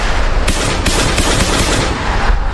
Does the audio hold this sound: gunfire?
yes